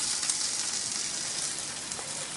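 A cheese-stuffed food sizzles as it fries in a pan after being turned, giving a steady, bright, crackling hiss that stays even throughout.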